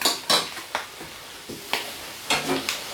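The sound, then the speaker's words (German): A spoon clanks and scrapes against a pot while a rice dish with vegetables is stirred, giving several irregular metallic knocks spaced over a few seconds against faint background noise. “So, wird einmal durchgerührt.”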